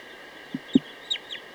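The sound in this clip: Bird calls: a few short, low clucks, then faint, thin high chirps, all brief and scattered over a steady background hiss.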